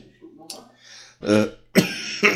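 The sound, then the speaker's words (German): Coughing: a few harsh, breathy bursts follow some softer throat sounds, each burst short and loud. “Der Husten ist heute gratis, den könnt ihr rausfiltern.”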